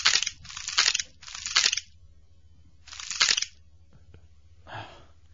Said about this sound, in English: Just chewing. His little teeth grinding.